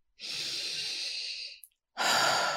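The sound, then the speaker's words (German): Slow, deep breathing in and out during a relaxation exercise: one long, steady, airy breath lasting over a second, a short silence, then the next deep breath beginning, clear and unaccompanied by talk. “Atme drei, viermal ganz tief ein und aus.”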